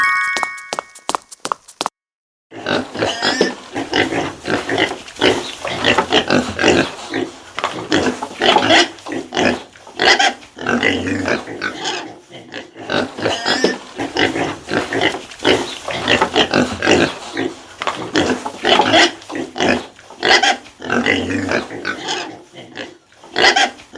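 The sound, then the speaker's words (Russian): A pig grunts and oinks in many rough, rapid bursts, loud and irregular, with short pauses between runs of snorting. The grunting continues for the full length without talk. “Свинья. Свинья.”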